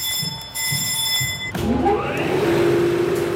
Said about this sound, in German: Es rumpelt, es klackert, Zahnräder greifen ineinander. Langsam setzt sich Walze für Walze in Bewegung. Fast klingt es, als würde ein Museumsstück zum Leben erwachen. Und irgendwie ist es auch so, diese Kadiermaschine stammt aus dem Jahr 1900.